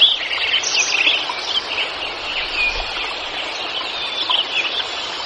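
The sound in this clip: Birdsong in a mountain meadow with a stream and spruce trees: a dense chorus of high chirps and trills rides over a steady, rushing wash of water throughout, with no voices.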